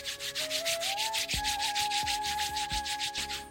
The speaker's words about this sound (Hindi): उससे पहले आप सब आंखें खोल लीजिए, अपने दोनों हाथों को आपस में रगड़ते हुए